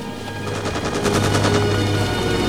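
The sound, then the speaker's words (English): Machine-gun fire sprays a jungle from a helicopter in a rapid, loud, continuous stream of evenly spaced shots that runs for the whole stretch over a steady low drone. “The chopper peppers the jungle with bullets, and Beckett starts to haul his partner away.”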